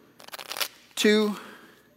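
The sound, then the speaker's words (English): Riffle shuffle of a deck of playing cards: a quick fluttering burst of card flicks lasting under half a second, followed by a short voiced sound from a person. “And I would do a riffle shuffle. And I'd say, if you shuffle three times with a riffle shuffle,”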